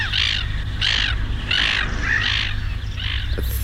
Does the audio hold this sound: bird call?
yes